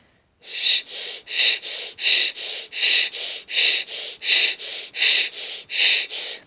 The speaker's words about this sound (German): indem Sie in der SCH-Stellung verbleiben und dann Ein- und Ausatmen durch dieses SCH nehmen. Es hört sich so an.